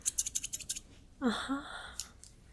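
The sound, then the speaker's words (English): Scissors trimming beard hair in a barbershop roleplay: a quick run of about six crisp, bright snips, then a short voiced sound and a few fainter clicks. “All right, I need to trim your beard hair.”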